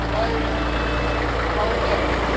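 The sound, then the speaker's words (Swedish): A red and yellow double tractor drives past at a farm machinery event, its engine a steady, low, rumbling drone at an even level throughout. “dubbeltraktor körande förbi oss här. En röd och gul.”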